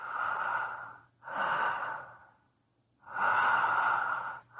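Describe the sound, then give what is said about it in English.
A person breathes heavily through the mouth during a medical examination, taking three long, loud, hissing breaths with short pauses between them and starting a fourth. “Breathe through your mouth.”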